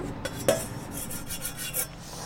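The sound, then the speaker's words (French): Granules being stirred into hydrolat in a bowl for homemade laundry detergent, heard as faint, steady rasping and scraping strokes with a few brief soft clinks and no voices. “je vais les mettre dans ma, dans ma gamelle où j'aurai versé notre hydrolat. Voilà, je remue bien.”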